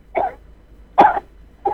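A caller on a phone line coughs three times: short, hoarse bursts separated by quiet gaps, the middle one loudest.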